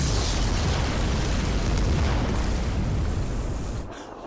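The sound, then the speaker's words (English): Bomb explosion blowing up a house: a dense, continuous roaring rumble that spans low to high pitches and holds steady before thinning and fading in the final half-second, with no voices. “This was a fucking bomb dropping on Beaver Cleaverville. Blows up the house.”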